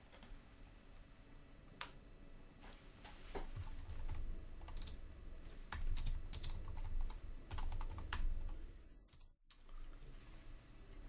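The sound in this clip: Code being typed on a computer keyboard: quiet, irregular keystrokes clatter on and off, many clicks with short gaps between flurries.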